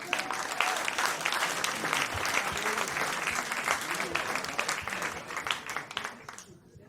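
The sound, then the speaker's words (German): Audience applause at a comedy show: a broad wash of many hands clapping, fairly faint, holding steady before tapering off near the end. “Dann ist das dein Applaus, bitteschön.”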